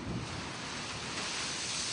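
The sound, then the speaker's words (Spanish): Strong wind on the coast roars in a steady, broad rush, buffeting the microphone with constant loud noise and no pauses or voices. “Y es fuerte viento, no se puede ir también para allá afuera.”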